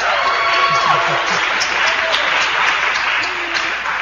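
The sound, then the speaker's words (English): Live audience in Toyon Hall on the Stanford University campus applauding and cheering, a dense, loud wash of clapping that holds steady throughout, with a voice briefly heard near the start. “Tonight we're here in Toyon Hall with a live audience on the Stanford University campus. Wow.”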